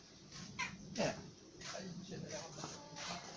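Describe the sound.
A cat meows a few times, short and mid-pitched, mixed with people talking quietly over a steady background hiss.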